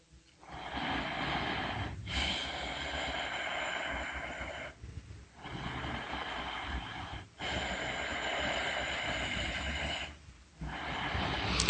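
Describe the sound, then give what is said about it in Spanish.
Slow, deep breathing in and out during a guided relaxation, heard as several long, loud, airy breaths separated by brief pauses, with no talking. “Inhala, exhala.”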